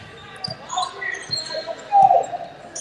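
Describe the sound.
Basketball dribbled on the court during a women's game, three dull low thumps spaced unevenly over a murmuring crowd.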